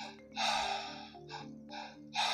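Breathwork: a two-part breath drawn in and pushed out through the mouth. One long, forceful rushing breath is followed by a few shorter, quieter breath bursts, all fairly soft and with no talk.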